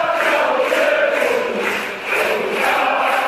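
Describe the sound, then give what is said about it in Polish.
A crowd of fans cheers for the Poland national team at Ergo Arena, a loud, sustained roar of many voices holding steady, briefly dipping midway before swelling back. “Tłumy kibiców w Ergo Arenie, taki donośny doping.”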